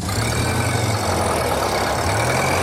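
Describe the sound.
An old car engine, started with a hand crank, chugs at a steady idle. The low rumble and throb are constant throughout.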